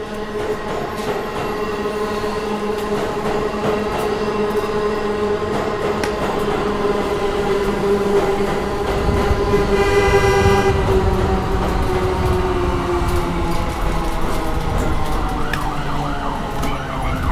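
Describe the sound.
A New York subway train passes in a continuous loud roar, with sustained whining and squealing tones riding over the low rumble from start to finish.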